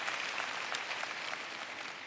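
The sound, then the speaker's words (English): Soft applause from an audience clapping for a couple's 25-year wedding anniversary during a prayer, a faint, continuous wash of many hands with no distinct individual claps. “We just celebrated two weeks ago our 25-year anniversary. And as we're praying, clap for that.”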